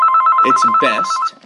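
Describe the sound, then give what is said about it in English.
A telephone rings with a fast, steady electronic warbling trill. A person talks over the ring before it cuts off abruptly. “Rina, can you just answer the phone?”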